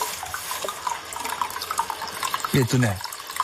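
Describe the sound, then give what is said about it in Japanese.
Hot spring water, source-fed and slightly lukewarm with a silky feel, flows steadily into a footbath, giving a continuous watery rush with people talking over it. “かけ流しですって、こう源泉ね、ちょっとぬるめになってますが、このね、とろっとしていますよ、ちょっとお湯がね、いいですね。”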